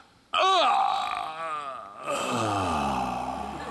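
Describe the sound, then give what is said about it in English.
A voice imitates the recovery groan of a knocked-out enemy in a Batman video game. It starts suddenly as one loud, drawn-out groan whose pitch wavers and slides, dips briefly, then carries on to the end. “Everyone gets sent to Arkham. So the way they do that is they have what's called a recovery groan. When you go,”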